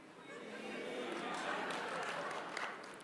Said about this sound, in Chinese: 这些掌声都是发自肺腑的了。